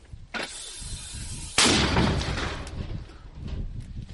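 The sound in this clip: A mortar battery firing: a sharp blast, then a much louder, heavy boom that rolls off into a long rumbling decay.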